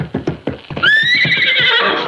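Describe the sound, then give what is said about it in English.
A horse whinnies loudly and shrilly for over a second while being worked as a jumper in a riding ring, over steady rhythmic hoofbeats that begin before the call. “Take it easy with that horse.”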